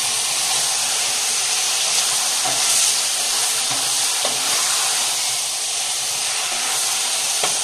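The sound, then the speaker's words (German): Food roasting in a pan gives a steady, loud sizzling hiss with faint crackles and occasional light stirring clicks, and no voices. “Und rösten das Ganze mit an.”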